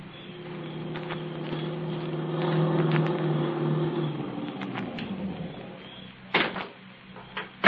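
A car with a tire going flat: a steady engine hum that winds down and drops in pitch partway through, then a few sharp knocks near the end, with no talk.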